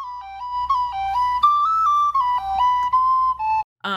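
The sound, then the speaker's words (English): A folk dance tune is whistled as a clear, solo melody of short stepping notes with a lilting rhythm, cut off abruptly near the end by a brief burst of sound. “Yes, to the tune Drops of Brandy, which sounds like this.”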